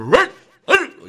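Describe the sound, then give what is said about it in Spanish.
A dog barks twice, two sharp, loud barks about half a second apart, with a short trailing whimper-like tail after each and silence between them. “Ese perro de Juana sí molesta.”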